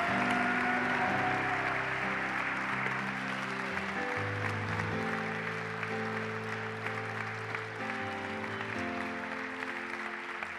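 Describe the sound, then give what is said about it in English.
A church audience applauding to welcome Pastor Tim Hall, steady clapping under sustained chord-like music throughout. “Come on, one more time. Give him a great big hand, would you?”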